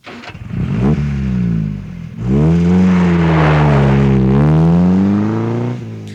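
Engines of a convoy of Porsche cars rev hard as they speed off at night, a loud, sustained mechanical roar whose pitch dips briefly, then climbs and holds steady before easing at the end.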